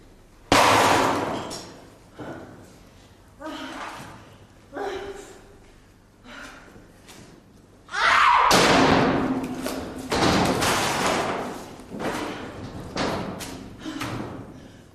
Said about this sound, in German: Jetzt kommt noch eine Flamenco-Einlage auf den Resten der Standuhr, die man kaum noch wiedererkennt. Sie ist in kleinste Teile zersplittert.